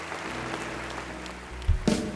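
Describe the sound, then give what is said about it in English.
A church audience claps as an offering in steady, dense applause, with a couple of louder low thumps near the end. “Would you seal that with a clap offering?”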